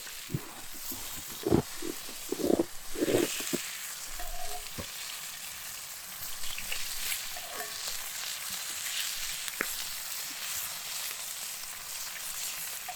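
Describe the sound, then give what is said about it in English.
Bacon sizzles and fries in a pan during outdoor cooking and grilling, a continuous hiss with scattered pops and a few louder crackles early on, then settling into a steady, even sizzle. “Put the bacon in there? Yeah, just put it in there.”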